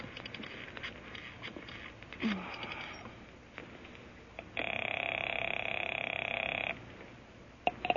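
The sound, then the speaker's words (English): A telephone being dialed for a call: scattered soft clicks and rustles, then a steady buzzing tone that holds for about two seconds before cutting off, with a few sharp clicks after it and no voices. “I better call Larry.”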